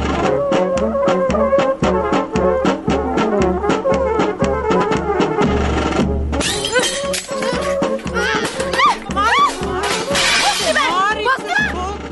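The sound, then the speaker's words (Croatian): A cooking pot is smashed with a sudden, sharp crash that cuts into rhythmic music in a 1989 Serbian film comedy, followed by a busy spell of clatter and voices. “Što da razbije šerpenju, ma?”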